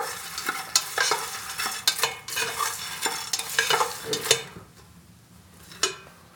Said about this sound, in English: Making sure every popcorn kernel is sufficiently coated